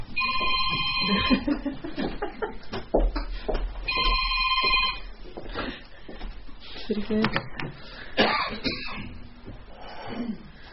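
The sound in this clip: A telephone rings during a meeting in several bursts of bright, trilling bell tones, separated by pauses, while people talk throughout.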